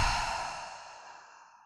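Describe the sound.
A single long, breathy exhale out through the mouth, part of a guided deep-breathing exercise, starting strong and gradually fading away over under two seconds.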